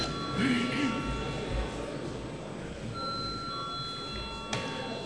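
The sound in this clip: An electric chamber bell rings in a parliament hall before a vote, thin, steady, high-pitched tones sounding in two stretches, with a voice speaking briefly near the start.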